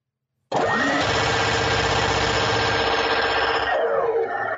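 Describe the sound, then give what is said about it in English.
A minigun spinning up, as a sound effect: a loud, dense mechanical whir that climbs in pitch as it starts, holds a steady high-speed drone, then winds down in pitch at the end. “I will spin up the minigun for rapid fire time.”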